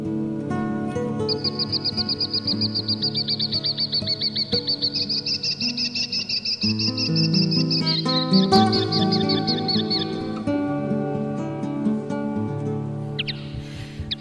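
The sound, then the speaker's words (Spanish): A linnet, a tiny bird perched on a branch of a small tree, sings a long, lively stream of rapid high twittering and trilling phrases that runs without break. “este pajarito que estáis escuchando, según me dijo un compañero experto en el tema, parece ser que es un pardillo. Un pajarito muy chiquitito y que canta así de una manera muy, muy apoteósica.”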